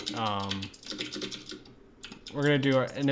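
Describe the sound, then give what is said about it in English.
Typing on a computer keyboard: soft, irregular key clicks run beneath a person talking throughout. “you're going to hear my typing on that”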